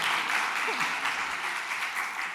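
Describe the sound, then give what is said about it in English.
Audience applause from a lecture crowd, a dense, steady wash of many hands clapping that stays loud and even throughout. “You don't have to applaud beforehand.”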